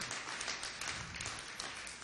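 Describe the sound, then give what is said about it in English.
Applause from a church audience: many hands clap in a dense, steady patter at a low level, with no pauses across the whole stretch. “Come on, give them a hand clap.”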